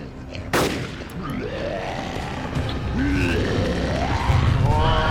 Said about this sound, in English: Target locked. You're clear to engage. Take the shot. Make it count.